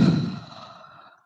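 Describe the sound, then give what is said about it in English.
A single breathy exhale through the mouth, taken in a downward-dog yoga pose. It starts fairly strong and fades steadily over about a second, like a gentle sigh. “in through your nose. Exhale through your mouth”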